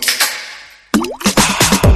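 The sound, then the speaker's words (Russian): A bubbly plop sound effect with a quick upward pitch sweep. It bursts in after a fading tone and is followed by dense, busy sound. “Вот как раз бульк был”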